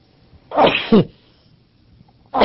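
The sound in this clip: A sheikh sneezes once, a loud drawn-out burst that ends in a sharp second blast, and another sneeze-like burst begins just at the end.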